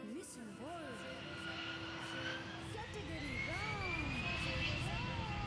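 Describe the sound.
An airplane engine sound effect gives a steady, loud roar with a whining drone, playing continuously and evenly throughout as a quiz team boards the plane.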